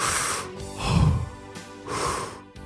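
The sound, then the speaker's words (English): Deep breaths drawn in through the nose, heard as a few loud, breathy, snort-like inhales in a slow rhythm, alone with no talking. “Could you practice just a few deep breaths really quick, in through the nose?”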